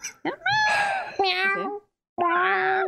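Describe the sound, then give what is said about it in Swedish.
A person imitates a cat's meow with a few drawn-out, wavering, high-pitched mews separated by short gaps, loud and alone. “Jag brukar nämligen avsluta med att mjaua.”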